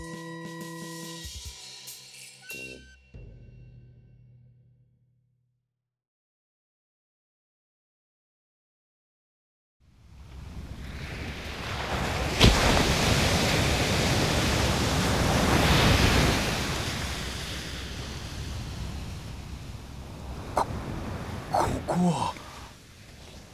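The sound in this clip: Waves wash onto a seashore below steep cliffs, a broad, steady rush of surf that swells and eases for several seconds. It follows a brief tonal passage and a silent pause.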